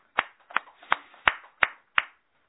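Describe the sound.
Six sharp handclaps at an even, unhurried pace, faint and with nothing else around them, offered as birthday applause at a shrine gathering.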